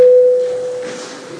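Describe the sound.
A parliament voting bell signals a vote with a single steady, clear tone. It rings loudly at first, then fades and continues faintly to the end.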